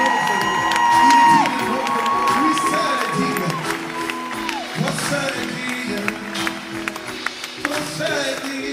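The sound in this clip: An evangelical Sunday church audience in Croissy-Beaubourg, east of Paris, cheers and acclaims loudly, with whoops, shouting voices and scattered clapping in a continuous, lively crowd roar.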